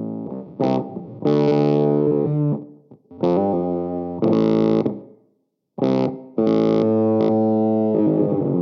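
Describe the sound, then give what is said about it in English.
Distorted electric guitar runs through the Gatekeeper pedal's octave circuit, its gating effect chopping the sustained, buzzy chords into a few loud bursts. The bursts cut off abruptly, with one brief full silence between them. “but the octave circuit in the Gatekeeper is wild. Let's see. Like, yeah, turn that on. Listen to that. That's the gating thing you're talking about, right?”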